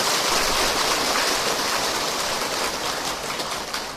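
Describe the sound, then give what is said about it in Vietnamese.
Warm audience applause at a Buddhist gathering, a dense, continuous hiss-like roar of many hands clapping that stays steady and thins slightly near the end. “Vậy xin một lần nữa một tràng pháo tay thật nồng nhiệt.”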